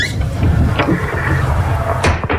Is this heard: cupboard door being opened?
yes